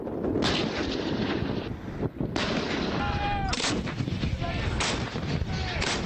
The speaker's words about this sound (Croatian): Planirane operacije ovom manevru započele su jutro s pucanjem oklopnih postrojbi i zračnom podrškom vojnih helikoptera unaprijed određenom području.